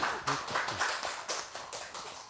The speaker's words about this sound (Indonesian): Kita kasih aplaus dulu sekali lagi.